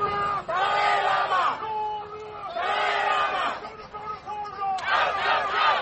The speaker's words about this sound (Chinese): 白天和夜晚都有抗议者高声呐喊，抗议中国当局压制人权，尤其是中国的西藏压制性政策。现场可以听见抗议者呼喊达赖喇嘛的名字以及中国耻辱等口号。